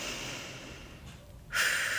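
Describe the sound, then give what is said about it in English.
A deep breath drawn in through the nose and let out through the mouth: a soft, airy rush that fades briefly, then swells louder and breathier near the end. “And now take another deep breath in through your nose and out through your mouth.”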